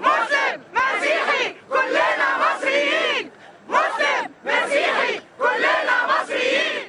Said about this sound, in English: That is the sound of women protesters in Cairo during the height of the recent pro-democracy demonstrations in Egypt.